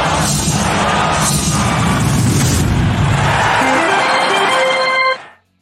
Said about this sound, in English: actually I should play the theme